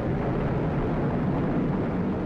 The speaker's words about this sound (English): 5, 4, engine ignition, 2, 1, 0, release, and liftoff. as the countdown to Mars continues.